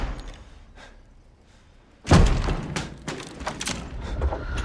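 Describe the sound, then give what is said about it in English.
A bedroom door slams shut with one sudden loud thud after a quiet stretch, followed by a lingering burst of rustling, clattering noise that stays fairly loud to the end. “Inside, Judd closes his bedroom door.”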